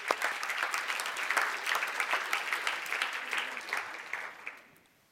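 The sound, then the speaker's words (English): Audience applause at a panel event on climate solutions and sustainability in cities: steady, dense clapping that holds for several seconds, then thins and fades out near the end. “So let's give them a hand for their fantastic work.”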